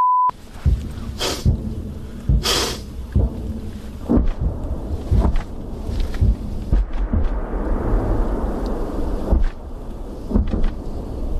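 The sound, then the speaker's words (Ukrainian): Artillery fire on a front line as Russian guns shell continuously, with many deep booms and rolling rumbles at irregular intervals over a steady low roar and no voices. “Упродовж доби, що я пробув на передовій із піхотинцями, російські армійці безперебійно вели вогонь із артилерії.”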